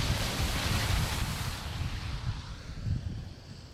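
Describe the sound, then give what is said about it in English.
A car drives through standing floodwater on the main road between St Austell and Mevagissey. A broad, loud rush of splashing spray fades gradually, with some wind noise. “as another car approaches this standing water”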